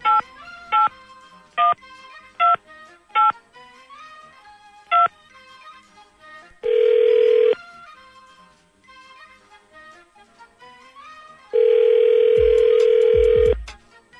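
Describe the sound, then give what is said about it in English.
A telephone number is dialed on a touch-tone keypad with six short beeps, followed by two long ringing tones separated by a pause. “We're going to call him up when we come back. Dialing at random.”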